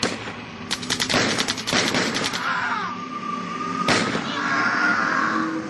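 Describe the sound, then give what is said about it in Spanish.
Gunfire in a skirmish: a rapid burst of many shots like machine-gun fire, followed after a pause by a single sharp crack, all over a continuous rumbling background. “Las capas se están abriendo paso a los tiros, teniente, ¿qué hacemos?”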